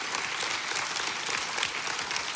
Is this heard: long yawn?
no